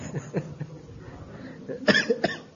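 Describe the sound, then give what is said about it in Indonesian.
Coughing during a religious lecture: a few short, harsh bursts, with the last two, close together near the end, clearly the loudest and sharpest. “Nih batuk juga kok ketawa.”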